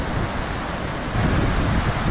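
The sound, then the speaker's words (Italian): Victoria Falls in Zambia roars as a dense, steady rush of falling water, a broad unbroken hiss and rumble that swells slightly louder partway through, with no voices. “E qui le cascate Vittoria.”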